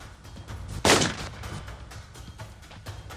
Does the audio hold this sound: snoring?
no